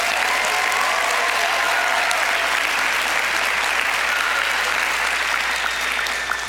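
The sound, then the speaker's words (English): A church audience applauds with dense, steady clapping that holds at an even level for about six seconds and tapers slightly at the end. “Church, let's give them a hand.”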